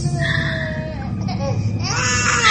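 A young child crying, a wavering, high-pitched wail that continues steadily for the whole clip at a fairly loud level.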